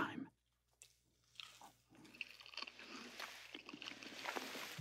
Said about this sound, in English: And then it was time. Time to taste the gros-Michel. Now, here we go. Okay, it's time.